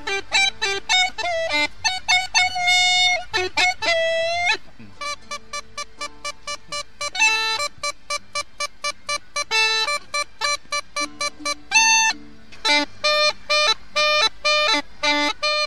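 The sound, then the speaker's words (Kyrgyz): Small palm-sized harmonica at a festival imitating various animals: bright, reedy notes with warbling bends and trills, then many rapid repeated chord bursts in a quick, bouncing rhythm, loud and alone. “Ал аркасына асынган чантасынан алаканга чак гармошкасын алып чыгып, ар кыл жаныбарларды туурап кирди.”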